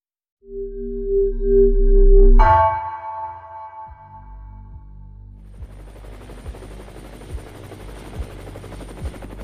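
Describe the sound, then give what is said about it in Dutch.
The Lifeliner 1 trauma helicopter lifts off from VU Medical Center in Amsterdam, with slow, regular rotor thumps and a rising hiss of turbine noise that builds steadily. “Lifeliner 1 stijgt op vanaf het VU Medisch Centrum in Amsterdam. De traumahelikopter reageert op een alarm”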